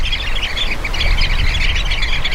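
Dense, overlapping chattering calls from a flock of social birds that gather in large groups. The chirps and squawks run on steadily without pause, loud and continuous, over a low rumble.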